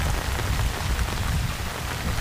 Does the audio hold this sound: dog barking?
no